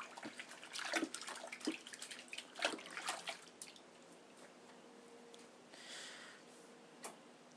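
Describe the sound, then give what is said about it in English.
Running tap water splashes over hands being washed, a faint, steady wash of water broken by irregular clicks and small splashes, with no talking. “Right, wash hands.”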